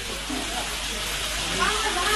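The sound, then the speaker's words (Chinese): Red-hot pebbles, heated in an open fire to hundreds of degrees, are placed on food and give off a steady, broad sizzling hiss beneath a narrating voice. “巨大的鹅卵石放置在明火中加热，待石温到达数百度之后，迅速投放在食材之上，用石头的温度将食物催熟，”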